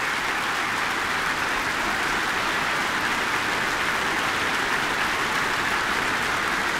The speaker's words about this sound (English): I can't see the whole audience from where I'm sitting, but I can see quite a few people on their feet, a standing ovation.